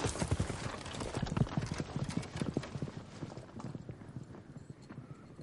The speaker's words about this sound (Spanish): Se aleja sobre su caballo.